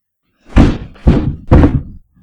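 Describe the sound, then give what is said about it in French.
A cane knocks on the ceiling three times, each a heavy, dull thud at an even pace with a short decay. “c'est cette énervante Clélie qui frappe au plafond avec une canne pour annoncer que la soupe est sur la table”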